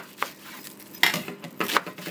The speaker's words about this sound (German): In der Küche wird fleißig Gemüse und Salat gewaschen, geschnippelt und für die große gläserne Salattheke vorbereitet.